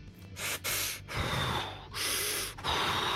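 Heavy, rasping breathing from a tabletop role-playing game player voicing their fighter character taking a second wind after an attack: several loud in-and-out breaths in a steady rhythm, with no speech.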